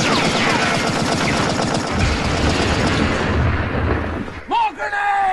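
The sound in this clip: Machine gun fire in a video game, a dense, continuous rattle of rapid shots with heavy low thuds for about four seconds, then a brief voice breaks in near the end.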